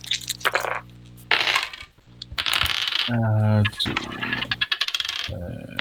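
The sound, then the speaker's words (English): Dice clatter across a table as players in a tabletop role-playing game each roll two six-sided dice. Several bursts of sharp clicking and rattling come one after another, with brief voices heard between them. “Everybody roll 2d6. Oh boy. Add your dexterity bonus.”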